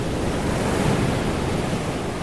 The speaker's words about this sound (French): Les rafales de vent sont si puissantes qu'elles façonnent les courbes des mélèzes.